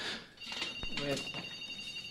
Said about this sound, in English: if you're the one calling in right now, just give me a minute to get off the microphone, and I'll pick up the phone